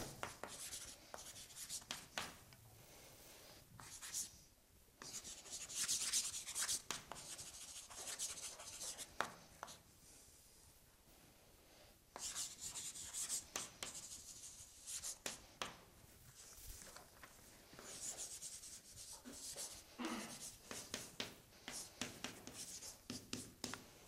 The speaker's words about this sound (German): Das schreibe ich hier nochmal auf.